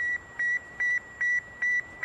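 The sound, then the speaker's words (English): Beeping signal from Sputnik 1, the 1957 Soviet satellite, a tiny aluminum sphere with four whisker-like antennas: a steady, evenly spaced series of short high-pitched beeps over a faint hiss. “It was the world's first artificial satellite. The tiny aluminum sphere with four whisker-like antennas sent the beep,”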